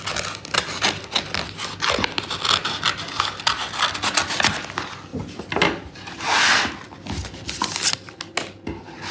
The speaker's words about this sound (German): Dann schneide ich das mal wieder auf.